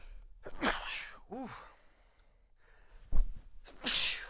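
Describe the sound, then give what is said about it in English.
A person sneezes after a quick gasping inhale: a sharp vocal catch comes first, then a loud explosive burst and a hissing breath out, with no talk around it. “Oh no, I'm going to sneeze.”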